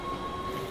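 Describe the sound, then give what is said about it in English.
A train at Amsterdam Southern Station gives a steady, brief rumbling hum with a thin, high, sustained whine running through it. “That's the sound of the train that just brought me here to Amsterdam Southern Station.”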